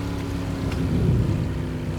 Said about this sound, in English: she spotted a boat